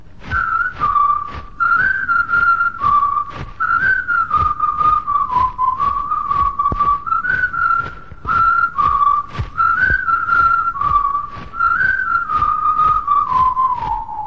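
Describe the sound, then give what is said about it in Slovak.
Loud, clear whistling carries a lively folk-style song melody, sliding between notes over a steady, regular rhythmic accompaniment that runs throughout, with no voices. “Pískat!”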